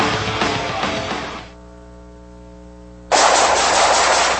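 Rapid machine-gun fire comes in two loud, sustained bursts, separated by a short pause filled with a steady humming tone.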